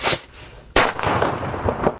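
A bottle rocket firework goes off with two sharp bursts, the second trailing into a noisy crackle that fades out.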